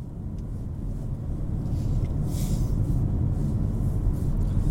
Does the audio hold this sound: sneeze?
no